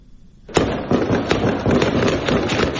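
Gunfire breaks out during an armed raid by Taliban forces on an Islamic State hideout in Kabul. It starts abruptly and turns into loud, dense, rapid crackling volleys that continue without pause.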